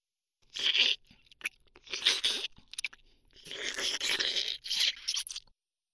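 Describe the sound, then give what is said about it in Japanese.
Eager, vigorous crunchy eating of a much-loved treat by a hungry female, heard as repeated bursts of loud crunching and chewing separated by short pauses. “これを待ってました。彼女がこれを大好きなのです。なので食べてもらいます。さあどうぞ。”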